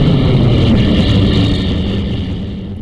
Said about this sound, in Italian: Questo era un aereo